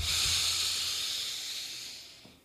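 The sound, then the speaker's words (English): A deep breath taken during a guided relaxation tapping exercise: one long, soft, airy rush of breath that starts full and gradually fades, heard alone without talking. “Okay, take a deep breath in.”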